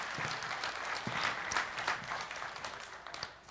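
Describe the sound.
Applause from a church audience after worship music, a steady patter of many hands clapping at a fairly faint level that tapers slightly toward the end.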